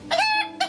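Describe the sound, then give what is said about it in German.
A Russian rooster crows: one loud, strained cock-a-doodle-doo, followed by the start of another crow. “Hier. Das ist ein russischer Hahn.”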